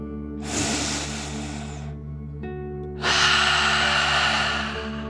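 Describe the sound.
A deep breath drawn in and let out during a children's relaxation exercise: one long, airy inhale, a short pause, then a longer, slightly louder exhale, all over soft, steady background music.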